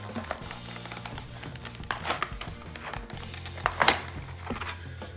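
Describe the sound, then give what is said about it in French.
Crinkling and scraping of a cardboard box of Bluetooth in-ear earphones being opened, with uneven rustles and a few sharper clicks and tearing bursts over a low, steady background hum. “Donc on va ouvrir la boîte.”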